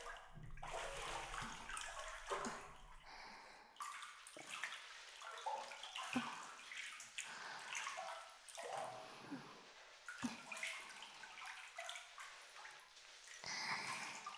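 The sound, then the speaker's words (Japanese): Water splashing and sloshing as someone's arm is washed, with uneven bursts of trickling and dripping. The sound stays fairly quiet and irregular throughout, and no one speaks. “こっちもしっかり洗っていくぞ。”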